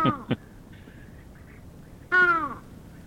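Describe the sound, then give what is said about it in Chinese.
A bird gives harsh, hoarse calls likened to a crow with a cold. Two short rasping notes open, then after a pause comes a louder, longer grating call that slides downward in pitch, over faint background hiss. “被形容为像沙哑感冒的乌鸦，它的叫声我们来 听 有这么糟糕吗、嗯、我们来听一下”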